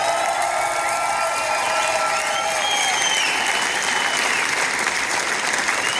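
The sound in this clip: Audience applause for the forum team at a forum event: dense, continuous clapping at an even level for the whole stretch, with no talk over it.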